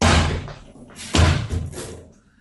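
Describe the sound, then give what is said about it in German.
A door bangs open as a man comes in, a heavy thud at the start followed by a second loud knock and a few softer bumps that taper away to quiet. “in einem der klassischen Romane des seligen Raymond Chandler, so käme nun ein Mann durch die Tür, eine Pistole in der Hand.”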